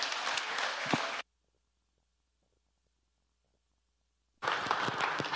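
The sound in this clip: Clapping from an audience greeting guest speaker Tony Cooke at a church gathering, heard as two short stretches of dense applause separated by a silent gap.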